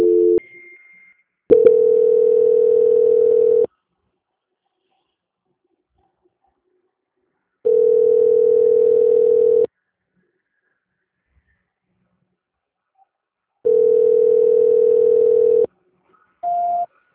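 Telephone call-transfer tones: a brief high beep opens, then three long, steady mid-pitched tones of about two seconds each follow, separated by long silences, before a short higher beep at the end.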